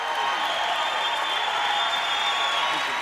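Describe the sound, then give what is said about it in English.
A church audience applauds a guest speaker at a service, giving a warm welcome with dense, steady clapping that stays at an even level throughout without any break. “Pastor, let's stand on our feet as we give a powerful, warm welcome to Apostle Jethro Malindzisa. Come on, Bazalwana, give the Lord a big hand.”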